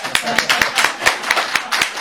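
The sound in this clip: Audience applause: sharp, even claps in a steady rhythm of roughly four per second, each one a crisp, bright slap.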